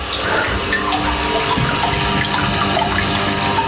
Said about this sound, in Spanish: ¿Escucháis la fuente?